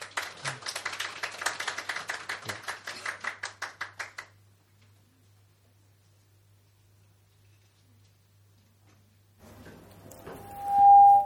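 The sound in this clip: Clapping welcomes a pastor to the front at a church service: a steady run of many sharp claps lasts about four seconds, then quiet follows. A short, loud high tone sounds at the very end.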